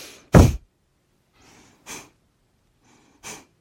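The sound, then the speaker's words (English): Forceful breaths of a yoga breath-of-fire style exercise, inhaling and exhaling through the nose. Three sharp, spaced nasal bursts stand out, the first the loudest, with softer breaths between them. “So it sounds like this. You inhale through your nose and exhale through your nose.”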